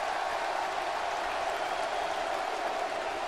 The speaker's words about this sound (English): This is awesome. The crowd's into it, dude.